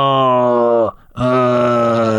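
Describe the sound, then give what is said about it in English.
A groan of pain: a drawn-out, strongly voiced moan that sags slightly in pitch, breaks off briefly, then resumes as a second sustained groan. “That's a groan.”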